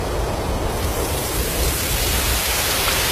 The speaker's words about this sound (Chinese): 这是风声